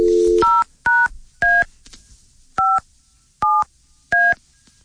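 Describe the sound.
Touch-tone keypad beeps as a phone number is dialed to reach a possible prize winner of a trip. A brief line tone comes first, then six clean beeps of differing pitch with uneven gaps, loud and alone.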